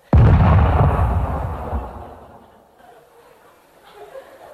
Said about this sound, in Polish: To jest ten sam wybuch. Ładunek był niezwykle mocny.